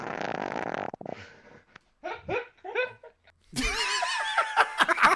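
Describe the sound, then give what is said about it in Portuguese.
A recorded fart played back gives a buzzy, sputtering burst of about a second, followed after a pause by snickering and laughter. “Vamos começar com o peido de número um.”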